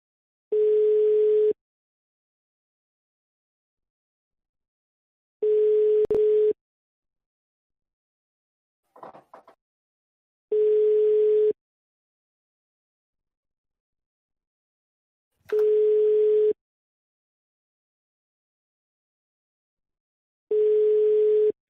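Ringback tone of an outgoing phone call that nobody picks up: five evenly spaced steady beeps of about a second each, separated by roughly four seconds of silence, with no voices.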